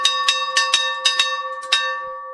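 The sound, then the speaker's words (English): Loud ringing of an old school bell, believed salvaged from a shipwreck, at a primary school: many quick successive clangs, each leaving sustained metallic overtones that ring on and then fade at the end. “A bell at Robe Primary School that's believed to have come off the Koning Willem de Tweed shipwreck called students in from recess and lunch for 125 years. It's really loud.”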